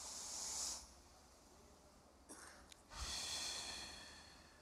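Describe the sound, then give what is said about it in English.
A person draws a deep breath in through the nose as a soft hissing sniff, holds it through a quiet pause broken by a couple of small clicks, then lets out a long, airy exhale that fades away. All of it is faint. “I want you to breathe in deeply through your nasal passage. I want you to hold it for 4 seconds. Then I want you to exhale for 4 seconds.”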